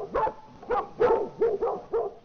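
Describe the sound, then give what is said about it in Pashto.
A dog barks six times in a steady, evenly spaced rhythm, each bark short, mid-pitched and clear, with no other sounds around it. “اوهو دا خو ډېر سپی دی دلته.”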